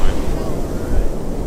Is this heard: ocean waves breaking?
yes